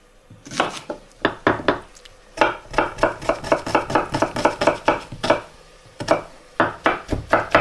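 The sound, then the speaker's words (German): Brisk knife chopping as onions are cut finely into small cubes, many sharp rapid strokes on the board arriving in quick bursts with a couple of brief pauses, no talking over them. “So, der Speck ist drinnen die Zwiebeln in Würfel.”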